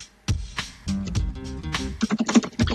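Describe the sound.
Typing on a computer keyboard: irregular bursts of quick, clicky keystrokes at moderate loudness, with short pauses between runs.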